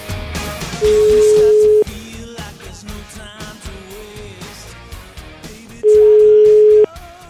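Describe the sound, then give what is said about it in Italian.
Two long, steady telephone line tones sound while a call is being placed, each lasting about a second, loud and even in pitch, separated by a pause of several seconds with low background sound in between. “devo chiamare Sgarbi, fermo, devo chiamare Sgarbi, fermo là.”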